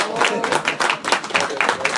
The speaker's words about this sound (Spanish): Un fuertísimo aplauso para nuestro maestro Jedi, David Noriega, por favor.